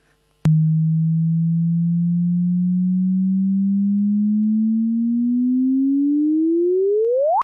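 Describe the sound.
A gravitational-wave chirp picked up by a detector and played as sound: after a sharp click, a pure, steady low tone climbs slowly in pitch for several seconds, then sweeps sharply upward at the very end.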